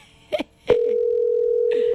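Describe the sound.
A telephone ringback tone on an unanswered call: a couple of short clicks, then a single steady tone lasting just over a second.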